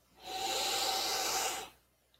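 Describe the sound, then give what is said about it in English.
A big deep breath, a faint, airy rush of air that swells smoothly, holds steady for about a second and a half, then fades, with no talk over it. “Big deep breath.”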